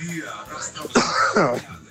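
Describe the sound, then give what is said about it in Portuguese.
A person with a bad cough on a phone call, with a few harsh coughing and throat-clearing bursts mixed with strained voiced sounds. “Mas a tosse danada aqui”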